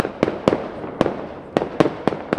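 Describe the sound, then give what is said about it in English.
A neighbour's fireworks rockets set off to celebrate a cricket victory: several sharp, cracking bangs at uneven intervals over a steady crackling hiss. “Every time a Pakistani batter was out, and there are 11 of them, my neighbour fired off a rocket. Now he's unleashing the rest of his arsenal.”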